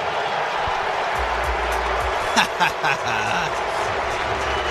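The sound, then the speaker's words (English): An arena crowd at a Buffalo hockey game reacts to Jack Eichel's return with a loud, sustained wash of noise over a low drone, a few brief swells rising and falling midway. “Sure. There were definitely some boos in there. You know, that doesn't bother me one bit.”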